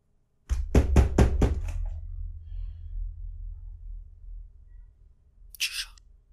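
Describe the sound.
Several sharp knocks on a door in quick succession, followed by quiet with a low, steady background hum.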